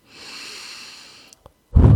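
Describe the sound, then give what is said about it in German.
Deep breathing: a long, soft, hissing inhale, then after a short pause a brief, heavy, rumbling exhale that is louder than the breath in. “Tief ein- und ausatmen.”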